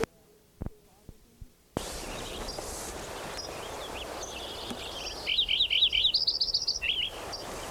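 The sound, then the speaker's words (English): Lincoln's sparrow song rings out as a rapid, high, bubbling warble of repeated trilled notes lasting under two seconds, over a constant outdoor hiss, after a few soft clicks and thumps at the start. “Lincoln Sparrow number 5 again.”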